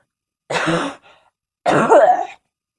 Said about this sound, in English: I feel like I have to cough because my throat's like.